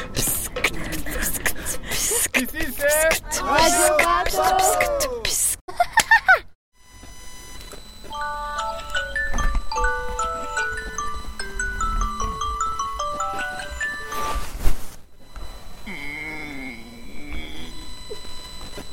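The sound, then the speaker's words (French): An electronic alarm clock on a sailing boat during the Vendée Globe race plays a stepping melody of clear beeping tones for several seconds. Voices are heard before and after it. “C'est le réveil, capitaine.”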